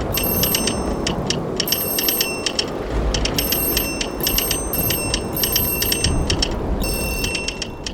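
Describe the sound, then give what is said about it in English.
An electric doorbell rings non-stop alongside a hammering telegraph relay. Bright metallic ringing comes in many repeated bursts with rapid chattering, riding over a steady, loud, noisy hiss throughout. “telegraph relay hammering away like a pair of those wind-up chattering teeth, and an electric doorbell ringing non-stop.”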